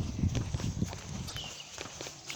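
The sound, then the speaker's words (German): Footsteps on a single-lane earth path on high ground, covered with a thick layer of pine needles. The steps are soft and irregular, with muffled low thuds and light crunching. “Der Weg auf der Höhe ist jetzt hier wirklich angenehm zu laufen. Ist zwar so ein einspurig befahrbarer Hauptweg, Aber weil hier so viel, und es ist aber nur Erde und da liegen ganz viele Tannennadeln drauf.”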